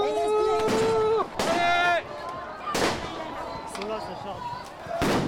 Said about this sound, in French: Explosion, la police charge la queue de cortège. Tir de grenade lacrymo.